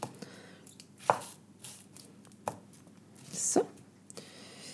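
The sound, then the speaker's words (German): A knife dices half an onion on a cutting board, giving a few faint, separate knocks of the blade against the board spaced irregularly over a low background. “Eine halbe Zwiebel wird jetzt einfach klein gewürfelt.”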